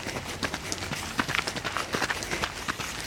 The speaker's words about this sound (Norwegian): Det er høst, og i den røde skogen opp mot Grefsenkollen i Oslo springer bein som ikke har løpt på to år.